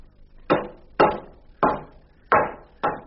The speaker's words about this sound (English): Oh, the noise. You're getting rid of the wood.